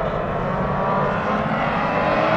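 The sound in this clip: Race cars roar off at the green flag, a thick, heavy engine roar that stays loud and continuous for the whole moment, with no break or talk over it.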